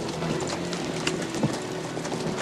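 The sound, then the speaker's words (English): Horses ridden through a town's dark main street clop along in a steady stream of overlapping hoofbeats over a low background rumble, with a few louder strikes standing out. “Later, a dozen horsemen ride through Big Whiskey's dark main street.”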